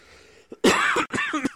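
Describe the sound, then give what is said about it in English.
Harsh coughing and hawking from someone recovering from bronchitis: a short catch, then two loud, rough, phlegmy bursts with some voiced rasp, the second ending in a sharp tail. “excuse me. I'm actually still getting over bronchitis. Oh, okay. That's why I'm like hawking and lugian”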